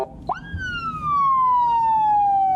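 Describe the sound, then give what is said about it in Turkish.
A police car siren, set off with a handheld siren remote, gives a single loud wail that jumps up quickly and then glides slowly and steadily downward in pitch, holding strong to the end. “Elinde siren kumandası vardı.”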